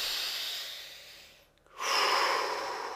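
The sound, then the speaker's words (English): A person takes a breath: a soft, airy breath fades out into a brief pause, then a fuller, louder rush of air follows, with no talking. “Could take a breath.”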